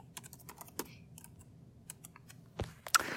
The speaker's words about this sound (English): I've typed it in.